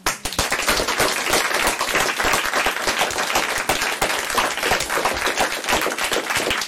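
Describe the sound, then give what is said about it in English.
Audience applause welcoming a speaker at the LSE: dense, sustained clapping from a crowd, steady and loud from start to finish. “Before the speaker starts, can you join me first in giving him a good old-fashioned LSE welcome?”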